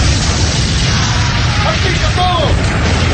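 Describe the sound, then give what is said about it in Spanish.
A tank exploding into a huge fireball in a war drama, a loud, sustained, rumbling roar that fills the whole moment, with a voice faintly present beneath it. “Pero más de una docena de cuerpos destrozados se desperdigan alrededor de una enorme bola de fuego que emana desde el tanque.”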